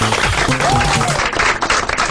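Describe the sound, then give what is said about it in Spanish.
Audience applause for a contest winner just drawn by name: dense, loud, steady clapping throughout, with a voice briefly audible within it. “Increíble, tenemos un ganador y es Guerrero. Guerrero, aplauso.”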